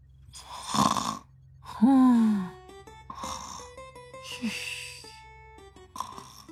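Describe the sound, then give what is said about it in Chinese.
A human voice imitates snoring for a kangaroo, producing a few drawn-out, rasping snores and groaning breaths that rise and sink irregularly, with faint tonal sounds between them. “崔米涵长长地舒了一口气，瘫坐在椅子上，为袋鼠配上了打呼声”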